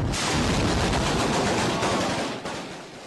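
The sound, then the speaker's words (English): Heavy gunfire and explosions in Syria during fighting between government forces and armed groups: a dense, continuous roar of rapid shots and blasts that stays loud throughout and eases slightly near the end. “Heavy explosions and gunfire continue to shake Syria.”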